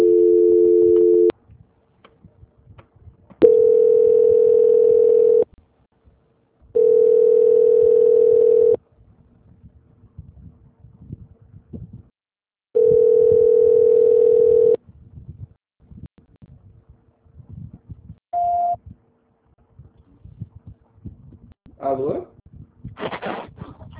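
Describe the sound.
Telephone line tone during a call transfer: four long, steady mid-pitched beeps, each about two seconds, separated by gaps with faint background noise, followed by a few brief chirps near the end.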